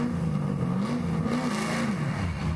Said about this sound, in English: what do you think this one is, mate? It's a Mustang. 1965 Mustang.